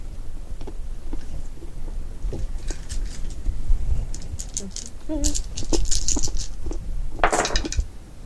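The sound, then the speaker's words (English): Eight dice clatter together in a damage roll during a tabletop role-playing game, a busy run of many sharp rattling clicks and knocks over a few seconds. “Roll 8 damage dice.”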